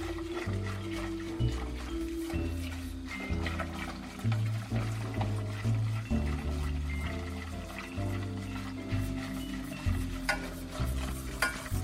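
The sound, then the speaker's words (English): A spoon stirs flour paste as it cooks and thickens in a pan, making continuous scraping and squelching strokes in an uneven rhythm, with a faint sizzle underneath. “you're fully cooking and hydrating your flour. And it will be a lot easier to work with.”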